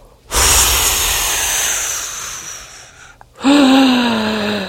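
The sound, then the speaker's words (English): A long, exaggerated exhale blows out stale air in a loud, steady hiss, then after a short pause a deep, forceful breath is drawn in. “first you want to blow out all the stale air and get that out of there. And then it's only natural that you go and breathe deeply.”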